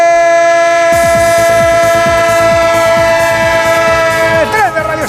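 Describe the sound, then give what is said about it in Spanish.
A train horn blares steadily over rhythmic wheel clatter that starts after about a second, a radio jingle effect. The horn's pitch bends downward near the end, and the whole sound is loud. “El tren de Onda Cero.”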